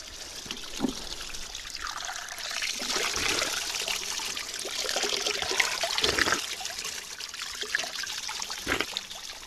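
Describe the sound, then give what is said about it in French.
Spring water trickles from its source in a continuous, fairly soft stream of splashing and gurgling, steady throughout with slight swells, and no voices. “Et ici coule la vie. C'est la source.”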